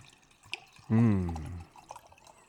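Wine poured from a bottle: a single smooth, gurgling pour lasting under a second, loud against an otherwise quiet background.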